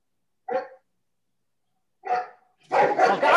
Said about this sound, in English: I'm fostering some dogs. I found a bunch of stray dogs in the neighborhood. I've been taking them in, and it's there's a lot of them.